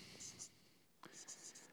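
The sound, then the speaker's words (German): Handwriting with a pen or similar tool: faint, squeaky scratching strokes come in a few short bursts, separated by low, soft murmuring. “Schreiben wir hier unten hin.”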